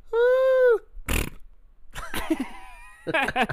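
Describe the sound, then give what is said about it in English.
A man's voice imitates a fart noise: a sustained hooting tone, then a short raspy burst, followed by more voiced sounds. “I just made myself laugh with that stupid fart noise.”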